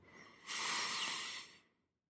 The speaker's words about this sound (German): Und atmen ein